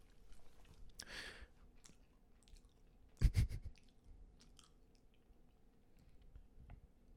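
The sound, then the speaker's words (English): Chewing of candy corn, quiet, soft, wet mouth sounds broken by a few crunchy bites, with one louder burst of crunching near the middle. “I'm going to just try a traditional candy corn, a witch's tooth, if you will.”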